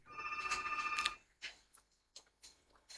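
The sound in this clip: A telephone rings as a caller joins a live radio call-in show: a single, fast, trilling burst of ringing lasting about a second, followed by several soft, scattered clicks.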